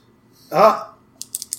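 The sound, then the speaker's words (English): A pen is clicked several times in quick succession, producing sharp, light clicks just after a brief vocal sound. “If you click that pen one more time, I'm going to rip it up.”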